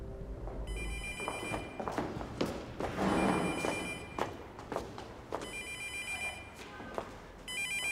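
A telephone rings in repeated electronic trilling bursts separated by short pauses, with soft thumps and footstep-like knocks beneath.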